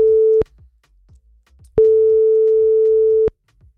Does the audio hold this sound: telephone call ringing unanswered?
yes